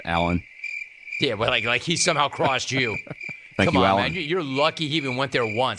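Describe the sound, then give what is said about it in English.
A cricket-chirping sound effect is played from a soundboard as a steady, high chirring under several men talking loudly over it. “You know what that is? That's the sound of crickets, dude.”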